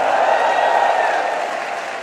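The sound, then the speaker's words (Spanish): A church audience applauds, with hands clapped overhead in a dense, continuous burst that holds steady and then eases slightly toward the end. “Dale sobre tu cabeza aplausos.”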